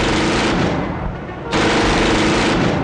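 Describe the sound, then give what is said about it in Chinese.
A line of gunmen fire blindly into dark woods at night: a loud, dense, continuous roar of shots that eases briefly midway, then returns at full force. “枪手们被他带起的晃动树枝吸引过去，对着黑暗盲目地排成一排并盲目地射击”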